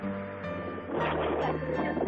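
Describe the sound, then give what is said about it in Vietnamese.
Steady roaring road noise reaches a caller on the move along a street, a dense continuous rush with a low droning hum underneath. It turns slightly rougher midway and has no talk. “em đang lái xe ngoài đường hả? Ồn quá à, chị nghe không được.”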